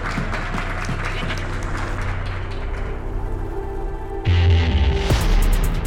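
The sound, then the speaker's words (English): An audience applauds at the close of a stage discussion with dense, steady clapping from a crowd, and a low hum joins in during the final seconds. “Let's give a hand to great audience and great discussions.”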